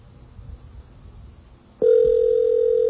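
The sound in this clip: On an outgoing telephone call to a voicemail system, a steady electronic ringback tone starts abruptly after a stretch of faint line hiss. It then holds at a constant, loud level to the end.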